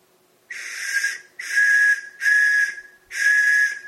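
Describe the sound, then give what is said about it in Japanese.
A poorly sounding whistle gives four breathy, hissing blasts with a steady pitch. Each blast lasts well under a second, and its tone seems split into two notes sounding at once. No voices are present. “笛3、この笛がねちょっと鳴りが悪いの。”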